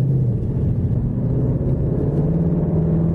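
A Ford Mustang engine, paired with a 10-speed automatic that has paddle shifters, holds a steady, deep rumbling drone throughout with no clear rise in revs and no voices.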